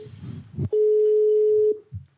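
A single steady telephone ring tone sounds as a call is placed to a mystery guest during a yes-or-no guessing game. The loud, even tone holds for about a second, with faint low murmuring before and after.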